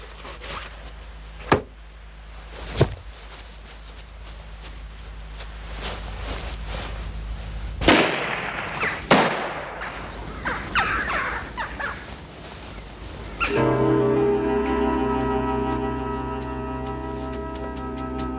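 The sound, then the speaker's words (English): Two sharp gunshot cracks, fired through a hat to fake a struggle over gold during a roadside robbery. The shots land about a second apart against a quiet background, followed by scattered bumps and a steady tonal hum. “If you was to shoot two holes in my hat, that might convince him, sir.”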